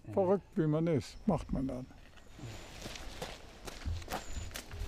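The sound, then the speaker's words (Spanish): Footsteps of an 81-year-old man trotting up 177 stone stairs, taking them two at a time and using his arms; talk comes first, then a run of many quick, light steps. “Allá vamos. Sube los escalones de 2 en 2, usando también sus brazos.”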